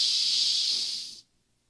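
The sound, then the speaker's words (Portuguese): A deep breath during a breathing exercise: one long, steady, bright hiss of air lasting about a second, which cuts off abruptly into near silence. “Vamos praticar agora. Vamos lá. Um, dois, três e...”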